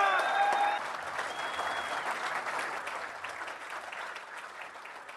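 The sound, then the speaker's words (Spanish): Audience applause fills the whole clip as a crowd welcomes a guest. Steady, dense clapping starts loud and slowly fades while still going. “vamos a recibir con un fuerte aplauso desde Canadá, desde Toronto, Terry Cognan.”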